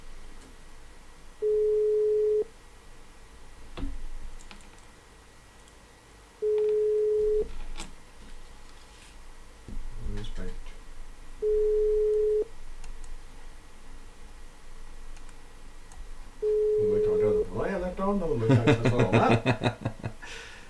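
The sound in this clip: Four long, steady telephone ringback tones, each about a second, sound at even intervals over a quiet background, and voices with laughter break in at the end.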